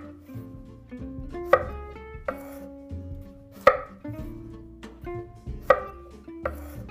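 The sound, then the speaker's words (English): A knife cuts food into small cubes on a board, giving a few sharp, loud strikes with lighter, softer cuts spaced between them in an uneven rhythm. “We cut it again over here. And we do one, and two, three pieces like that on a cube. And now we do all the rest the same I did this one.”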